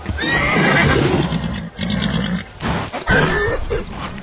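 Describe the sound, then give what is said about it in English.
A nervous horse, judged unrideable and too skittish for battle, whinnies loudly in high, wavering neighs mixed with breathy grunts and snorts, with a second neigh near the end. “I tell you, the horse can't be ridden, lad. His mind is broken.”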